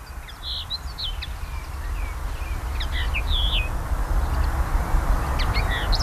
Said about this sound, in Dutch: We hebben overal kneutjes steeds. 10, 20 misschien wel. Hè? Kijk, nou gaat hij ook een beetje zingen.